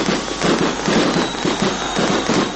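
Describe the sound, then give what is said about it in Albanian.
Fireworks set off in Kosovo to celebrate a homecoming: dense, continuous crackling and popping, loud and steady throughout with no break. “Për nder të kthimit të tij në Kosovë janë ndezur fishek zjarre”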